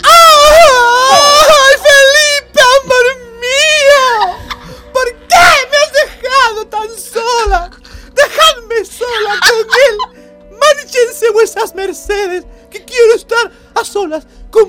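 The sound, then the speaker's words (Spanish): A performed voice wails and sobs as Juana la Loca, crying inconsolably at the foot of a coffin. Loud, wavering cries give way to broken, choppy sobs and whimpers. “su hija Juana la Loca, que llora desconsolada a los pies del ataúd.”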